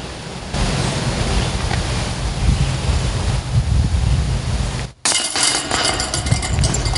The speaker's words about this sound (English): Wind's kicking up, so. Makes a gorgeous day feel even better.